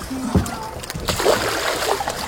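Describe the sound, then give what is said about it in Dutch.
A tagged shark splashing back into the water, a brief burst of splashing and sloshing amid steady water and boat noise. “Plonst hij het water in en is hij weer weg. Naar de diepte.”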